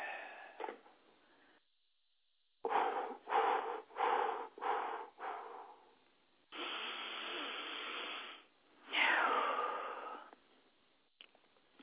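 Deep, faint breathing: a few short, quick breaths come first, then two long, slow breaths, with quiet pauses between.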